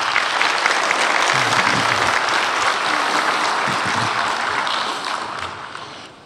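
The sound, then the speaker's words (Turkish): Loud, sustained applause from the crowd at a sports club's general assembly, a dense wash of many people clapping that holds steady and then fades away in the final second or so. “onlara kuvvetli bir alkış gönderelim”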